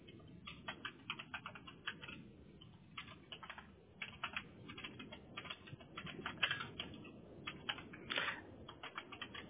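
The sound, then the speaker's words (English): Typing on a computer keyboard, a quiet, uneven clatter of many quick key clicks in bursts, with no talking over it. “And let me go ahead and type this in here.”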